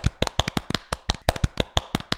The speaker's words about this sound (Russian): Выражаем благодарность нашим дорогим слушателям. Александру Младинову. Хлопаем.